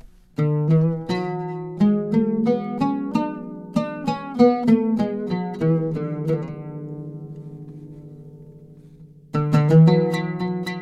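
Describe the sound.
An oud plays the Sika maqam scale as a run of bright plucked notes over a steady low ringing tone. The run trails off into sustained decay, then a few more plucks come after a pause.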